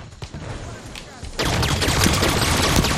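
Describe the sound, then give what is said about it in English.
Gunfire in an older shooter video game, beginning with pistols: a few scattered shots at first, then, from about the midpoint, a loud, dense burst of rapid continuous firing. “Oh shit, we've started with pistols.”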